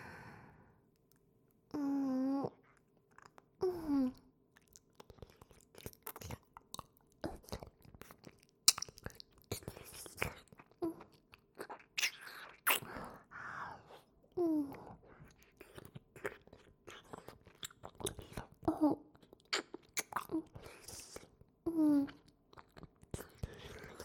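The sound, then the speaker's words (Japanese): Wet licking and mouth sounds in a close, intimate setting: many soft smacks, clicks and slurps in an irregular rhythm, faint and breathy, with sighs between them. “やっぱり美味しい。夢中になって舐めまくっちゃってた。”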